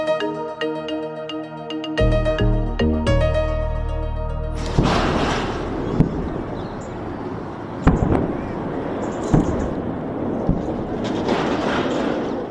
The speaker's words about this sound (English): That is the sound of airstrikes which millions of people in Lebanon have to live through since Israeli attacks began in September.